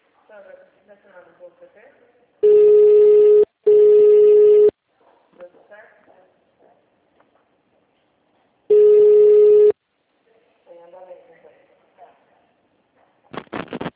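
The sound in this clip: Ringback tone on a telephone line after dialing an extension: a low, steady buzzing tone sounds three times, the first two almost back to back and the third after a pause, with a recorded voice before and talk afterward.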